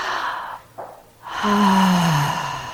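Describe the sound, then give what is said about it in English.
A big, deep breath taken during a guided breathing exercise: a loud, airy rush of breath that ends in a voiced, sigh-like tone falling in pitch. “So everybody take one big inhale.”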